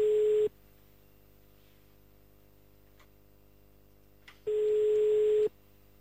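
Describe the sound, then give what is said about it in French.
Telephone ringback tone on a call to Wépion: a steady, buzzy mid-pitched tone sounds for about half a second, then a long silence, then a second tone for about a second, with no voices. “Allez, c'est parti, appel direction Wépion maintenant.”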